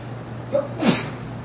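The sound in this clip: A single sharp sneeze bursts out alone, preceded by a brief catch of breath. A faint, steady low hum runs underneath.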